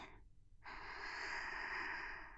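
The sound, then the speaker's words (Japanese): Slow, soft breathing: a short airy breath, a pause, then a long, steady breath out, all faint and without talk. “呼吸をゆっくり吸って、吐いて、吸って、”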